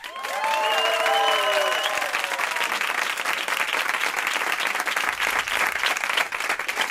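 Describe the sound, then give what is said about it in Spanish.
A crowd, presented as bidders from a penthouse auction, applauds and cheers in sustained, dense clapping with a few whistle-like tones near the start, holding at an even, fairly loud level throughout. “estoy aquí con 757.000 personas que participaron en la subasta del ático de Ayuso y que suenan así.”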